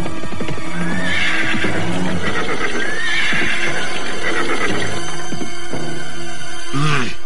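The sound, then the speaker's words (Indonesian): Horses approach carrying two riders, with loud neighs and whinnies rising over a steady clip-clop of hooves that runs the whole way through, ending in a sharp whinny. “Nah, lihatlah itu. Dua orang penunggang kuda menuju kemari.”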